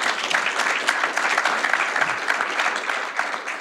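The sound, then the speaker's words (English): Audience applause at a public transit industry conference, a thick, continuous patter of many hands clapping at a steady, fairly loud level that hardly changes. “Let's give them all a round of applause.”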